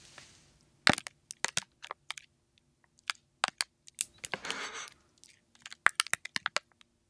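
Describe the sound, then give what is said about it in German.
Plastic packaging crinkling and crackling in many sharp, bright bursts, some in quick clusters and others separated by short pauses, heard alone without voices. “Das war jetzt nur die Plastikverpackung. Das Geräusch war abgefahren, finde ich.”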